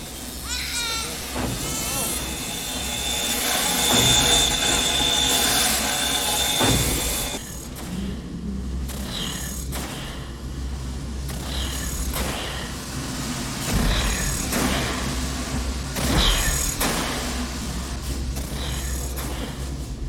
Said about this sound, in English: World's longest elevator ride, so much so that all the passengers in this elevator get to sleep before